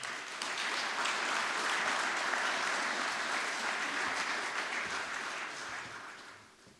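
Audience applause at a Holocaust remembrance gathering, a dense, steady clapping that holds for several seconds and then fades out at the end.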